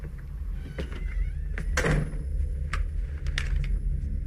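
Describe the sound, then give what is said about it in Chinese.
A door pushed open in a radio drama, heard as a brief scraping creak midway through, with a few faint clicks over a steady low hum. “话音刚落，利比推门而入，枪口直指尼克的要害。”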